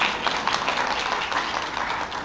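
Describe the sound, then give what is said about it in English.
An audience at a church gathering claps loudly and steadily, a thick, even roar of many hands throughout. “Let's give Jenny a big clap.”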